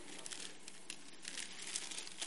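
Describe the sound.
Crinkling and rustling of a gift bag being opened, a soft, continuous papery crackle with small irregular crunches throughout and no voices.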